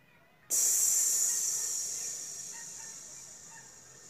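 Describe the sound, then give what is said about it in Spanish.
A person's long hissing exhale imitating a snake during a breathing exercise: a steady, bright hiss that begins abruptly and slowly fades, heard alone with no talking. “podés hacer la viborita y sacas el aire haciendo”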